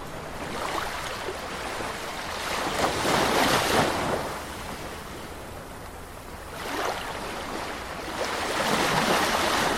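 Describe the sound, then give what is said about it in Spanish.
Sea waves wash and break in steady surges, with a loud swell building around the middle and another rising toward the end, separated by a softer lull of hissing water. No voices are heard. “Y con el sonido del mar nos vamos y podéis disfrutar del mar.”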